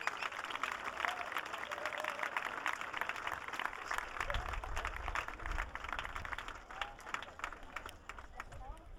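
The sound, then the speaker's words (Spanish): An audience applauds three girls from a school who are about to sing in mixed voices, with dense, steady clapping throughout and some voices mixed in. “Así que un aplauso para ellas.”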